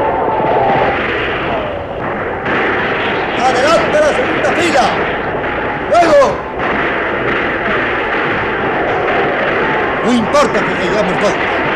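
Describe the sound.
A front rank of Spanish soldiers fires a volley in battle, with sharp gunshot cracks bursting out of a dense, continuous roar of fighting and shouting voices.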